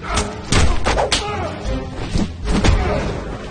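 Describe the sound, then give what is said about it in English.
In a fistfight, a man is sidekicked and dropped to the floor: a few heavy thuds and sharp smacks land in quick succession, loud and abrupt. “He sidekicks Trent and drops him to the floor.”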